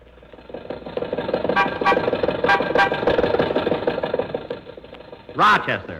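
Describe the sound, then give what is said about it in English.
An old Maxwell car being driven to an office on Hollywood Boulevard, its rough engine knocking and sputtering in a steady churn. A short, loud horn-like blare sounds near the end. “Mary, Don, and I got into Maxwell, and Rochester drove us over to Mr. Mortimer's office on Hollywood Boulevard.”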